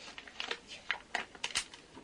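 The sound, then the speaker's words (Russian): A gold packet crinkles as a small slit is cut into it, with a few faint, sharp rustles and snips at an uneven pace. “А вот какой-то золотой пакетик. Ой, там что-то перекатывается. Сейчас я маленькую щелочку проделаю и посмотрю.”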